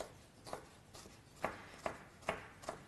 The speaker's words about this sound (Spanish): Como la quinoa es pequeñita, no es un ingrediente muy grande, voy a picar todo, tampoco muy muy pequeño, pero bueno, así picadito, como yo lo estoy haciendo.